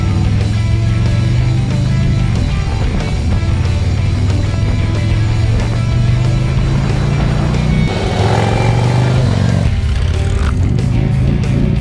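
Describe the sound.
Motorcycle with floorboards riding off on a street: a loud engine drone climbs steadily in pitch, drops briefly at a gear change and then climbs again.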